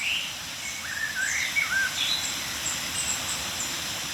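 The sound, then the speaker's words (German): Tits giving soft contact calls close around: thin, high chirps and short twittering notes scattered lightly over a constant background hiss. “Kontaktrufe oder milde Aufregungsrufe einiger Meisen um uns herum.”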